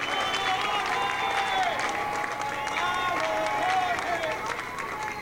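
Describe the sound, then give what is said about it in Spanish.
Big, steady applause from the audience at a meeting of grassroots communicators as a colleague stands up. Clapping stays dense and loud throughout, with voices calling out over it. “que le doy un gran aplauso. Ponte de pie, Jorge, para que vean.”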